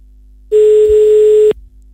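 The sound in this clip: A telephone ringback tone plays while a call is placed: one steady, mid-pitched beep lasting about a second, starting and ending abruptly.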